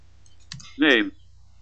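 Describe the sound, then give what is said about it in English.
A single click of the Tab key on a computer keyboard while moving around Windows Explorer, a short sharp tap followed by a brief burst of voice. “And I'll press Tab to move around the Windows Explorer.”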